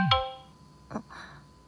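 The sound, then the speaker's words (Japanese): A phone message notification sounds with a short, bright, ringing chime that quickly fades, followed by fainter, softer tonal blips against near silence. “噂をすれば二人からメッセージ、君の方にも来たの？”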